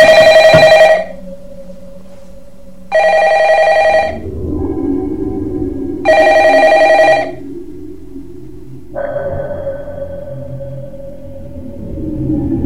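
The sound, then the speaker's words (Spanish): A telephone bell rings in three loud bursts about three seconds apart, each lasting roughly a second, with a lower steady tone droning in the gaps between them. “Y que poco después suena el teléfono.”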